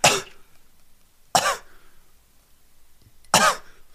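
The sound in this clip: Gentle huffing coughs, short forced breaths pushed out from the throat in place of a full cough. Three brief bursts come with quiet pauses between them.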